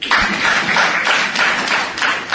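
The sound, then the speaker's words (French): A crowd in Lubumbashi claps and acclaims rural couples who are registering their traditional marriages with the state. The loud clapping pulses in uneven bursts. “Ces acclamations sont faites à l'endroit des couples ruraux qui ont décidé de rompre avec l'illégal.”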